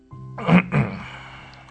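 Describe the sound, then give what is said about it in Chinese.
An old professor softly clears his throat in two short, gruff, voiced bursts, the second a little weaker than the first, with no other sound around them. “轻轻喉咙说道”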